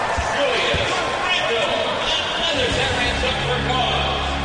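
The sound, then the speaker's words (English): Basketball dunk by Randle off a bounce pass in a professional game between Memphis and the Jazz, a slamming impact among ball bounces under a commentator's voice and crowd hubbub. “Solomon Hill bounce pass inside to Randle. He'll dunk.”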